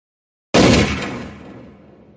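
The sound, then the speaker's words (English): A single loud handgun shot fired in the mountains cracks out abruptly after a moment of silence, then its echo rolls away in a long, steadily fading tail. “The shot was louder than I expected. And echoed through the mountains for almost 3 seconds.”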